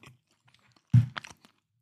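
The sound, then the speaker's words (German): Crunching and chewing of a snack eaten with medium-hot mustard: one sharp crunch of a bite, then a few softer chewing sounds, all fairly quiet and with no talking. “Und den letzten, wenn ihr gestattet, den schiebe ich mir jetzt rein. Mmh. Mit Senf.”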